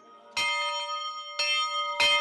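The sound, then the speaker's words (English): A church bell rings to announce services such as Vespers, Matins, Bible studies and weaving classes in a small town. Three loud strikes are each followed by long, sustained ringing overtones, with no voices. “For half a century, Vespers services, Matins, Bible studies, and weaving classes have all been announced with a bell.”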